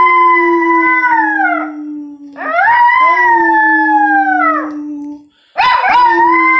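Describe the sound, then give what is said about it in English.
A chihuahua howls in three drawn-out, high, wavering calls whose pitch slides up at the start and droops at the end, the last one cut short; no talk. “Yeah, his previous owner taught him how to howl. Chihuahuas don't naturally howl like that”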